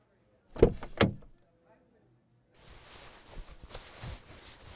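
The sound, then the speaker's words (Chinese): Car door being opened by hand at a dealership: two sharp clunks of the handle and latch in quick succession, then a pause and a soft, uneven rustling. “我们先进车里边感受一下怎么样？来，我帮您把门打开。”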